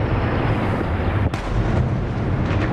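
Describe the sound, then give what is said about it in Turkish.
Explosions outside during a missile and drone attack make a dense, continuous rumbling roar. One sharp crack stands out near the middle, and the sound stays loud throughout with no voices. “Dışarıda ise patlamalar birbirini izledi.”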